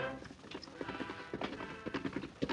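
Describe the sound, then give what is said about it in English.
Horse hooves clip-clop as a rider arrives into camp, a quick, steady run of many hoofbeats that carries evenly through the whole stretch. “Less than 2 hours after outlaws Lyle Bozeman and Pug Frisbee headed south, the Lone Ranger rode into camp.”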